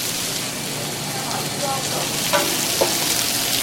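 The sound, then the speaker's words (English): Butter sizzles on a hot grill, ready for eggs, as a steady, bright frying hiss that holds evenly throughout, with a couple of brief faint taps near the end. “a little bit of that butter on the grill for the eggs”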